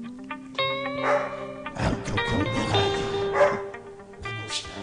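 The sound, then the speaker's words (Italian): Dogs barking and yipping on a music record, with several short, high yelps and barks scattered among sustained tonal notes at a moderate level. “giuro che questo è il disco, non sono i miei cani.”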